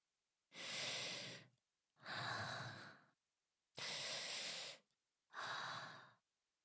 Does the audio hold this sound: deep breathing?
yes